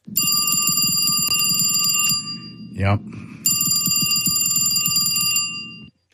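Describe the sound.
A telephone bell jangles in two long, bright, continuous metallic bursts. Between them a voice speaks one brief word before the ringing resumes and then stops.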